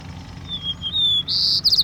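White-crowned sparrow song: a clear, high whistled note, then a buzzy trill and a few quick chirping notes, loud and alone over a low background rumble.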